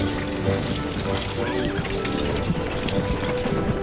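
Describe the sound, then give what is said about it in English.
A horse-drawn wagon pulling up to a house, with a steady dense clatter of hooves and rolling noise throughout and a brief wavering horse whinny near the middle. “In the wagon, Missy, her father, and her son pull up to their new house.”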